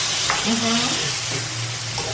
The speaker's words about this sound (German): Ich brate es noch ein bisschen scharfer an, wa?